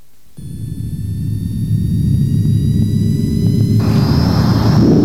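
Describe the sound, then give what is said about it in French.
An airplane taking off on a flight to Pointe-à-Pitre: a deep engine rumble swells steadily from a quiet start, with thin high whining tones riding above it and a brighter hissing roar building near the end. “Les passagers, à destination de Pointe-à-Pitre, sont priés d'attacher leurs ceintures. Décollage immédiat.”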